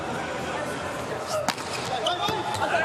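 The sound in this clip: The thump of a volleyball serve by the United States team's trusted server in a match against Italy, with a couple of sharp hits above constant crowd noise and commentary.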